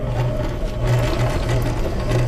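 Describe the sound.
A sewing machine runs steadily at a youth summer sewing camp, giving a continuous loud whirring hum with a fast, even mechanical pulse and no voices.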